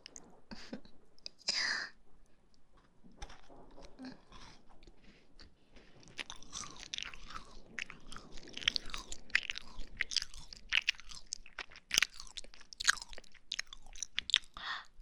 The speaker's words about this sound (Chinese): 还有最后一口了，我要吃掉了啊！